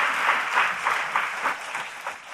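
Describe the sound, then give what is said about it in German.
Applause from a group: steady, rhythmic clapping that pulses roughly three times a second at an even, moderate loudness, with no voices. “Applaus für Stefan.”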